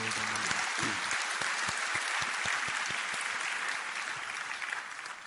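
Applause from a church audience, a dense steady clapping that holds at full strength and then eases slightly toward the end.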